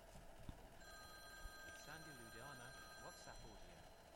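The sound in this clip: An electronic telephone rings with an incoming call, faint, steady and tonal for a few seconds, while a voice talks over it.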